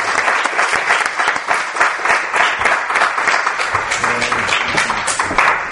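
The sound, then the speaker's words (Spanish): An audience at an awards presentation for the year's best investigation applauds loudly, with dense, steady clapping that continues for the whole stretch without a break. “Con lo cual, fuerte aplauso a estos tres Voces del Misterio del año.”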